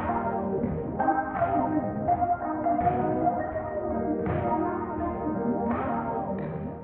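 A mobile phone rings again and again as messages arrive, giving bell-like chiming tones that repeat in a steady run at moderate loudness.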